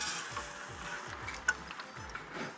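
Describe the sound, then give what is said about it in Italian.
Food sizzling briefly in hot oil during a very quick fry: a continuous faint crackling hiss with a few sharper pops scattered through it. “Allora, li puoi mettere là. Hai visto proprio un giro molto veloce nell'olio. Non devono star, sì, tanto.”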